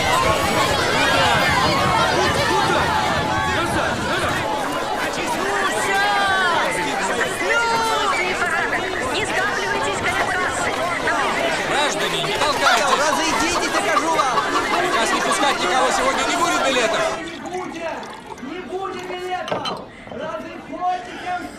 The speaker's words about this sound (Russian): Толпа пассажиров бросается осаждать вагоны поезда. Брест. Железнодорожный вокзал.